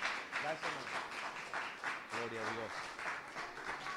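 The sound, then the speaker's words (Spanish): A church audience claps in praise during a worship service, with steady clapping mixed with voices speaking and calling out, all fairly faint. “Y el pueblo del Señor dice, y le damos palmas de alabanza, hermanos, palmas de alabanza.”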